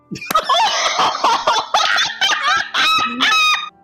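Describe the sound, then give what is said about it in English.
A seagull calls in a rapid run of loud, harsh squawking cries, with short gaps between them. “I missed the funny thing. It was a seagull.”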